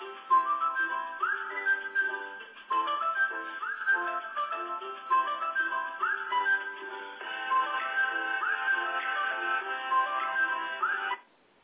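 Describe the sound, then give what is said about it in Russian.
A telephone ringtone goes unanswered, its bright electronic melody repeating the same phrase over and over for about eleven seconds alone before cutting off abruptly. “Трубку-то снимите или нет, в конце концов? Сколько ж можно-то?”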